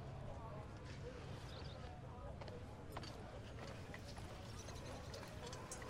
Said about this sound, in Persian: میریم اسبا رو یه جایی میبندیم تا من کشیش آلفرد رو پیدا کنم.